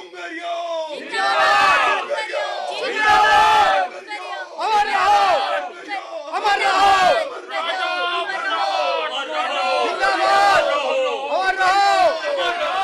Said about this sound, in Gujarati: તાંત્રિકજી, આ નદીના ઓવારે આટલી બધી ભીડ કેમ?